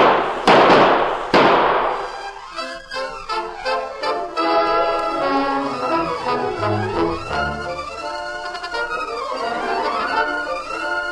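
Gunshots in an old radio western drama set by a stable: two sharp loud shots, then a rapid run of fainter cracks, giving way to swelling orchestral music.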